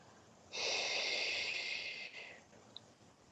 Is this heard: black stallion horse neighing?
no